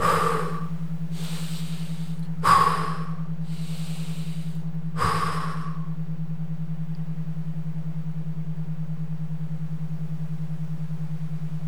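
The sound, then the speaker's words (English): Intense breaths in through the nose and out through the mouth: three sharp sniffing inhales alternating with softer airy exhales over a steady low hum, which continues alone afterward. “Take some intense breaths in through your nose and out through your mouth.”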